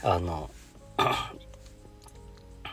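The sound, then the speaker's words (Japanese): A sharp, loud cough bursts out after a short voiced sound, then the sound drops to faint low background noise. “何回も咳込んですいません”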